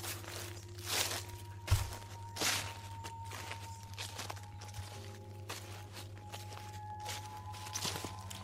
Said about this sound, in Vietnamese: Ở ngoài sân hình như có tiếng chân người đang đi lẹt xẹt lẹt xẹt.